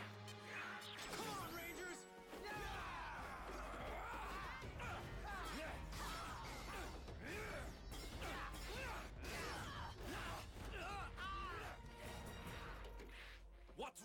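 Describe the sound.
A villain's doomsday machine engages in a cartoon, heard as a loud, dense, continuous din of clanking, crashing and whooshing effects that lasts the whole stretch.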